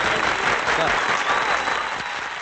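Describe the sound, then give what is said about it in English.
Applause from a group of people, a loud, dense wash of clapping that continues the whole time and eases off slightly toward the end, with voices talking over it. “give yourself a round of applause if you can”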